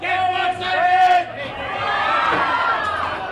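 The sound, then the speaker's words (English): A crowd at a Pike Place Market fish stall in Seattle: loud shouts, whoops and cheering voices over busy chatter, continuous and energetic throughout. “At the famous Pike Place Market in Seattle, you can get fish in all shapes, colors, sizes, and stripes.”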